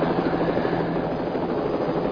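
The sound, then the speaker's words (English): Police helicopter rotor chopping in a steady, loud, continuous beat, with an even engine roar underneath and no voices. “But for us, it is the police helicopter.”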